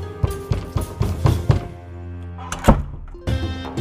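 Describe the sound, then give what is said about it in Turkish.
Knocking on a door: a few dull, uneven knocks over a sustained musical backdrop, with no talk. “Kapıya vurdum.”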